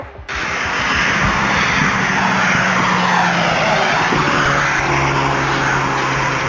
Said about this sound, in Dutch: Hun golf is goed te horen op hun razendsnelle vlucht op de randweg richting de N717.